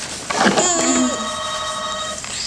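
A telephone rings inside a home, one steady electronic tone with bright layered harmonics that holds for nearly two seconds after a short burst at the start, then cuts off.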